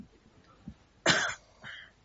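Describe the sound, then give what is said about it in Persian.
A single harsh cough bursts out loudly, followed by a weaker throat-clearing rasp. Faint low noise sits around it. “ببخشید من صرفم میگیره دیگه.”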